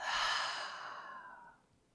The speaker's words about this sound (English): So let's take one more deep, full, long breath in. Open the mouth. And exhale all of it out.